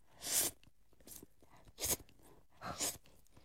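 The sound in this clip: Slurping of thin spaghetti in a thin, sour red sauce with small shrimp comes as three short, faint, breathy slurps separated by quiet pauses, with no talk.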